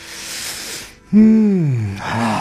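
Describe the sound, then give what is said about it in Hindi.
A man takes a deep breath of cool fresh morning air, a long, noisy inhale followed by a loud voiced exhale that briefly rises, then slowly falls in pitch. “ये ताजी हवा में सांस लेने का मजा ही कुछ और है।”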